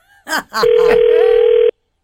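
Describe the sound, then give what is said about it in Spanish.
A telephone call being dialed: a single steady ringing tone sounds loud and even for about a second after a couple of short bursts, then cuts off abruptly into silence. “Estamos marcando a Mario.”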